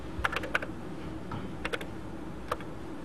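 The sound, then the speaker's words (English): A query being typed on a computer keyboard for a logic programming demonstration: a few scattered, faint key clicks, some in quick pairs, over a steady background hum. “of X is Z, and I type that in like a query, right?”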